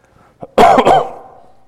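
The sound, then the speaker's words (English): A harsh cough from someone with a dry, slightly sick throat: a faint short catch comes first, then one loud rough burst with a brief dip in the middle, trailing off into quiet, with no talking. “my throat is a little dry, so I might cough a little bit just to let you know.”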